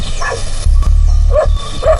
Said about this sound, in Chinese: 你没听到村子里鸡鸣狗叫吗？那正常。